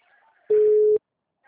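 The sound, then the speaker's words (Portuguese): An outgoing telephone call to a client gives a single steady electronic tone lasting about half a second, loud and pure, before cutting off cleanly into silence. “Primeira vez que eu ligo pro cliente em meses.”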